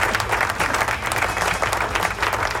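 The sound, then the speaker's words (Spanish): Applause in a rock radio studio, a dense, continuous patter of many clapping hands with a faint crowd murmur, holding an even, fairly loud level throughout. “Aplauso.”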